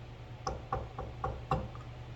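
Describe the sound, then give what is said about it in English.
Knocking on a door: five evenly spaced, fairly faint raps in a steady rhythm, with a softer sixth tap trailing after. “doors are being knocked on. That's right, folks. The doors are being knocked on.”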